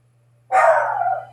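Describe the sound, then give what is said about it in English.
A single loud, drawn-out dog bark rings out alone over a faint steady low hum. “Listen to my dog.”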